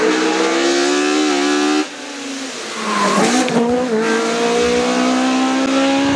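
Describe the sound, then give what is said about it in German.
Engine roar of a heavily tuned race car on a 2-kilometre hill climb course near Osnabrück. A loud, high engine note cuts off briefly at a gear change, then climbs again with a harsh rasp. “Grob gesagt, es geht darum, dass extrem scharf gemachte Autos möglichst schnell die 2 Kilometer lange Bergstrecke hochballern.”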